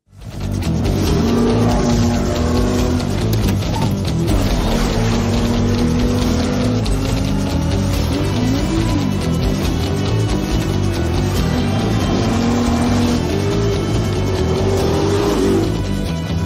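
A race car revving hard around a lap, its loud, continuous engine roar repeatedly climbing and dropping in pitch with no talk over it.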